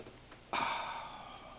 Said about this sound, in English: Inhale and raise your hands up.